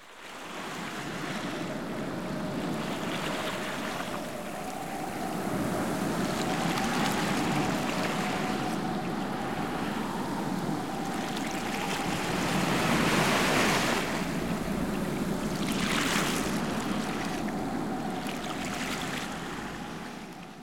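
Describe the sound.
Sea waves break on a beach at dusk in a continuous, loud rushing surf that swells and recedes in slow surges.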